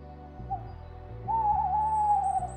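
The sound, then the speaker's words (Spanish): A burrowing owl (Athene cunicularia) calls: a short note, then a longer, slightly wavering mid-pitched hoot of about a second. A steady low hum runs underneath. “Y también la Atene cunicularia patricie, visitante de Argentina en la región de Aysén.”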